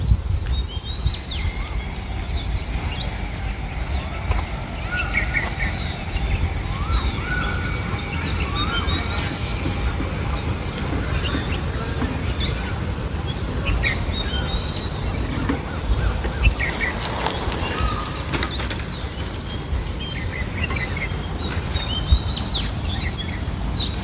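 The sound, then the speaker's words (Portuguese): Birdsong fills dense woodland along a path down to Lagoa do Congro in the Azores, with many overlapping chirps and whistles from several birds sounding continuously over a steady low rumble. “O caminho que liga o estacionamento até à base da Lagoa do Congro, nos Açores também, é todo feito debaixo de denso arvoredo. Se em vez de caminharmos, ficarmos a contemplar, é isto que se ouve.”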